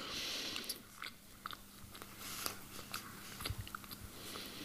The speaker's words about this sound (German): Ich rieche dran, es riecht nicht sauer. Mm. Dann einmal probieren.